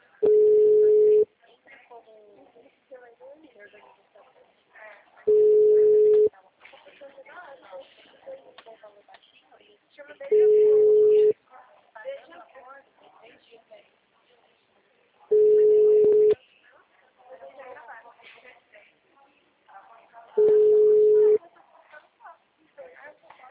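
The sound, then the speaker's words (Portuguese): A phone call's ringback tone: five steady, mid-pitched beeps about a second long, evenly spaced roughly five seconds apart, with faint murmuring between them. “Vou ligar para saber se ele precisa de alguma coisa.”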